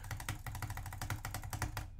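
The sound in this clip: Rapid butterfly clicking on a computer mouse during Minecraft play, a fast, quiet, uneven stream of many sharp clicks.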